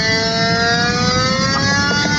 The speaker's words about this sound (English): that little whine you heard was the meter detecting gas